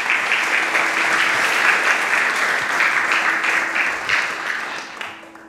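Audience applause welcoming a meditation teacher at the Rubin Museum: dense, steady clapping from many hands that holds at an even level, then thins and fades near the end.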